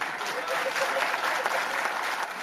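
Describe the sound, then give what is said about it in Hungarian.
Applause from the synod fathers after a remark by Pope Francis: a dense, steady burst of clapping that fills the whole moment, with a voice speaking over it. “Kérdezte Ferenc pápa, amire taps csattant a szinódusi atyák között.”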